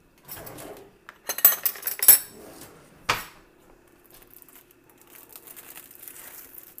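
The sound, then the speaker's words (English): A film lid is peeled back from a microwave mac and cheese cup, making crinkly tearing and a few sharp clicks, then quieter, faint scraping as the pasta is stirred. “So I'm supposed to peel this back, stir it, and put it back in.”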